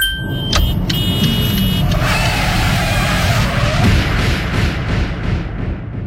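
A car brakes suddenly and skids on the road: a loud rush of vehicle noise with a sustained screeching tone through the middle, easing off toward the end.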